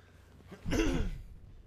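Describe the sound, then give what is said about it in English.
A single throat clearing to shift phlegm: one short, rough burst with a low voiced grunt, heard on its own with no talking. “I got phlegm in my throat.”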